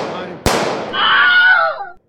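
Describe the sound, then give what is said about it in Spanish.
A gunshot cracks out once, a single sharp, loud bang, followed by a raised, strained voice. “¡Pero qué coño te pasa disparando, gilipollas!”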